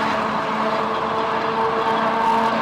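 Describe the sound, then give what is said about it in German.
Running noise from the Kaiserwagen, the historic car of the Wuppertal Schwebebahn suspension railway with old running gear, forms a loud, steady rumble with faint whining tones held throughout. “Der Kaiserwagen mit alter Fahrtechnik ist unüberhörbar. Anders als seine modernen Nachfolger. Quasi Nostalgie am Stahlgerüst.”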